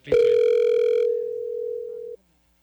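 A phone call rings out unanswered. One steady mid-pitched ring tone sounds alone for about two seconds, fading slightly before it cuts off into silence.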